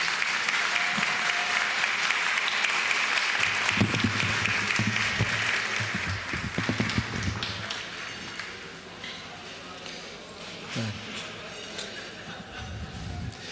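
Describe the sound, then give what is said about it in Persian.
Audience applause at an evening gathering of thanks, with loud, dense clapping from a crowd that carries for several seconds, then dies down to scattered claps and a quieter murmur of voices. “حالا هر چی میخواد برش دست بزن.”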